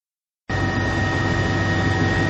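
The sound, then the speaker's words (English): A helicopter flying over a volcanic region, its loud, steady engine roar starting abruptly after a short silence and holding constant with a thin, high whine running through it. “We are now in a helicopter flying over the Ring of Fire.”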